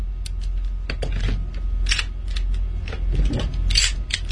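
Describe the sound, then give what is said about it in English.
Metallic clacks of an automatic pistol slide being pulled back and let go: a series of sharp clicks and snaps, repeated a few times, with no talking. “The hand comes up over the top of the slide, and you pull it back and let it go. Pull it back, let it go. Pull it back, and let it go.”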